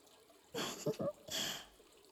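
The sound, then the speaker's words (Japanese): Water poured while washing someone's back: two faint, short bursts of splashing water, separated by a brief pause, with no talking. “背中を流してあげますね”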